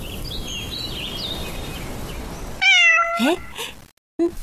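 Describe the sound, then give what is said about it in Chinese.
A cat meowing: a few short, rising meows come in abruptly after a steady hiss of background noise, with a brief final call after a short pause. “这猫怎么不吃猫粮啊？”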